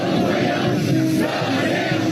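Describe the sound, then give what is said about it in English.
Hundreds of Chinese men and women chant in unison to greet President Trump as he leaves Air Force One in China, a loud, steady wall of massed voices with no break. “Meanwhile, Wednesday night in China, President Trump was greeted by hundreds of Chinese men and women chanting in unison, waving American flags as he got off of Air Force”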